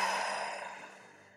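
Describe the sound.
A deep breath exhaled during a grounding exercise, a soft breathy rush that starts full and gradually thins and fades over about a second and a half, heard alone without talk.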